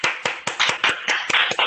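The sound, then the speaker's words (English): Applause from commission members at a civic meeting honoring an award recipient; brisk, evenly spaced claps from a small group, sharp and steady. “I ask the commission to join me in a round of applause.”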